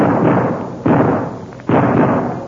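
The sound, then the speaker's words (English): Three gunshots fired in rapid succession, evenly spaced, each a sharp loud boom that trails off into a decaying rumble before the next. “We'll both fire a few shots through the front. Righto. Come on. We'll fire 2 or 3 shots in rapid succession.”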